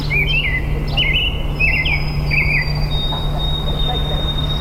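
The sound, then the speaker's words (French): Birds at a lake in Quebec or Ontario give a few quick, bright chirping phrases. A steady high insect-like tone and a low continuous hum sit underneath. “des vacances près d'un lac quelque part au Québec ou en Ontario, c'est comme ça que ça sonne.”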